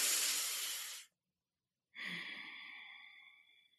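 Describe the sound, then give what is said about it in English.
A big deep breath: a long, breathy intake, a brief silent pause, then a drawn-out sighing exhale that fades gradually, all fairly quiet. “Another way to motivate yourself, take a really big breath, right? Let's just do it right now.”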